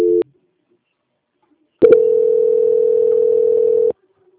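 Telephone tone while a call is transferred: a brief beep, then a pause, then a steady, loud, low-pitched electronic tone held for about two seconds before cutting off.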